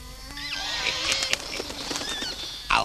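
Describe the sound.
A magpie flaps its wings as it flies off: a few soft wing beats, then a louder burst of flapping near the end, with whistling bird-like calls over a steady background.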